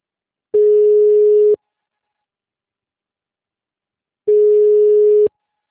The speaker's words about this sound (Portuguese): Por favor, aguarde, estamos transferindo sua ligação.